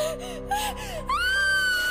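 A girl screams in agony, starting with gasping, broken cries and then rising into a long, high, sustained wail.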